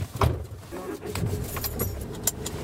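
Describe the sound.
A car setting off and driving, heard as a steady low engine rumble with light jingling and rattling on top and no clear talk.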